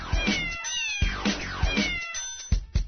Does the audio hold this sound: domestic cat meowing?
yes